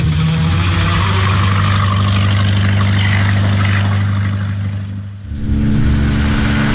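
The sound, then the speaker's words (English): A motorboat engine runs as a loud, steady low drone with a constant hum, dipping briefly near the end before coming back at full strength. “Why is this boat so slow?”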